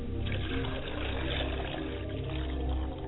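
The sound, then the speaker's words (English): Water poured into a glass as a spirit offering: a continuous gurgling trickle at steady, fairly strong loudness for about three seconds. “I pour a glass of water for my father's side of the spirit,”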